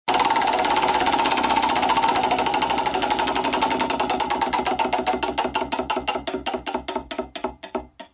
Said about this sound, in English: let me reach over here and grab this wheel. It's hefty for sure. I'm glad we didn't go cheap with the wheel. Let me give it a little spin here.